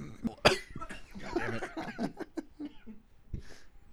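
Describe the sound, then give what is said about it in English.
A person coughs in a run of rough, irregular bursts, the strongest near the start, mixed with breathy throat sounds and a few softer hacks. “I'm coughing off that shit DMX sold me.”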